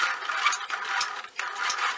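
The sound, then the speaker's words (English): A sewing machine stitches fabric a quarter inch from the edge of a bias tape seam, with no back stitch. A steady mechanical whir runs throughout, broken by one brief pause. “So I'm not going to back stitch here. And I'm sewing a quarter of an inch from the edge.”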